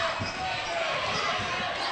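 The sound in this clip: Basketball dribbled on a court during a game: repeated low thumps of the bouncing ball under steady crowd noise, with a commentator talking over it.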